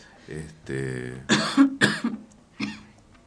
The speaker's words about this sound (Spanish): un programa atípico con algunas toses y vamos a tener que contar el cuento de la tos. Un cuento que empieza y termina con tos.